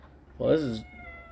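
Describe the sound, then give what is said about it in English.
A pet cat meows once, a loud mid-pitched cry that rises and then falls. It stands alone over a faint background. “Also, my cat is going crazy.”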